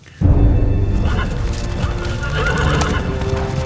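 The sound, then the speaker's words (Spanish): A horse neighs loudly in a long whinny that begins abruptly after a brief quiet start, over dense clattering hoofbeats and movement noise. “¡Mi caballo no! ¡Lo necesito!”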